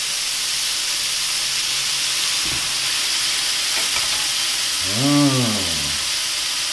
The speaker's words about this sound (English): Oh, that bacon's burning nicely. Oh yes, that is looking beautiful.